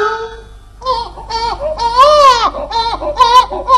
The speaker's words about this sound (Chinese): 把它放在盆里，只要小孩子一哭就好办了。哭了，怎么不哭了？你哭着，我叫你哭。